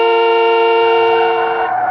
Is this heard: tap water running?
no